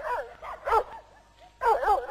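Dog barking as a sound effect in a stage play: a few bursts of sharp, tonal yelping barks, loud and clear, with short pauses between them and no talk.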